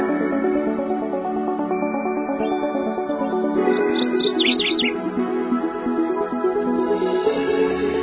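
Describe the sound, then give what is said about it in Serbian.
Small bird chirping: a few quick, high, thin chirps in a brief burst midway, set over a steady, dense musical background that continues throughout. “Posle pevca i ptičice mogu i ja.”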